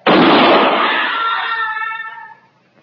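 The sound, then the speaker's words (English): A single loud rifle gunshot, a sharp cracking burst followed by a ringing tail that slowly fades over about two seconds. “Where'd you learn to shoot like that, mister?”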